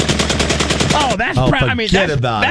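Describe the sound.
A semi-automatic gun fitted with a forced reset trigger fires a rapid, even string of many loud shots for about a second. The firing stops abruptly and people start talking.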